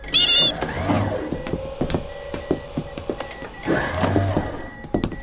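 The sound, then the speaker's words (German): A spaceship airlock opens in an audio drama: two surges of hissing noise with a run of clicks and thuds between them, plus a brief high electronic tone at the start. “Ich öffne die Schleuse.”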